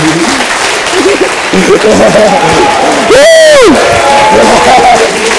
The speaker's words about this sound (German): Applaus.